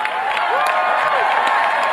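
Roaring applause from a political rally crowd, a loud, dense, continuous wash of clapping and cheering that holds steady for the whole two seconds.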